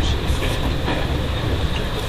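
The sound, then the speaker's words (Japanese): A rapid overnight passenger train runs on rails, making a steady, dense rumble with a continuous roar and no clear breaks. “本日は臨時の快速列車、ムーンライト新宿90号、ご利用くださいまして、ありがとうございます。”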